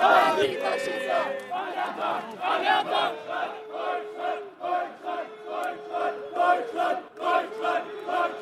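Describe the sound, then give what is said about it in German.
A right-wing crowd at a book fair shouts loudly in unison, many voices chanting short phrases in a steady, repeated rhythm with rising and falling bursts of volume throughout. “Das war das Signal für die Rechten, zum ersten Mal einstimmig richtig laut zu werden.”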